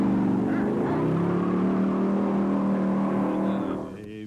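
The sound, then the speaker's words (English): A car engine accelerating hard gives a loud, sustained roar with a steady droning tone throughout, then drops off sharply just before the end. “Hit the gas, Daddy. Hit the gas.”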